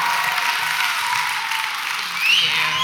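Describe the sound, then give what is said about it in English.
Audience applause at a church service as a pastor is welcomed up onto the stage: a dense, steady wash of clapping that holds loud throughout and swells slightly toward the end. “Standing ovation by three people, two of which are members of my family.”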